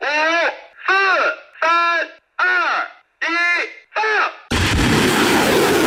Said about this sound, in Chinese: 发射指令下达，火箭弹呼啸出膛，直扑百公里外的海上靶区，首轮打击精准覆盖目标。